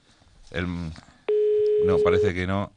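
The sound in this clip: A telephone call rings out to a restaurant: one steady, mid-pitched ringing tone lasting about a second, set between stretches of people talking.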